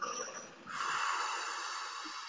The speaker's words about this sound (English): Taking a deep cleansing breath in and then out.